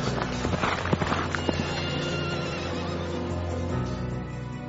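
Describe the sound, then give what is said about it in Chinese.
Horses whinny and hooves clatter as a king and his mounted cavalry flee after a chariot battle in ancient times. The neighing and hoofbeats form a dense, steady din with a few sharp accents near the start. “亚兰王便哈达骑着马和马兵一同逃跑，以色列王出城攻打车马”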